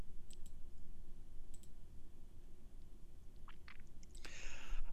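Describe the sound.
Light, crisp mouse clicks select an item on screen, a few of them landing in quick pairs with pauses between, over a soft, steady background hiss.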